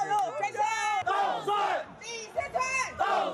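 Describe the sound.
Many voices shout loud, unison cheers for a youth baseball team at a political campaign event, rising and falling in several strong bursts throughout.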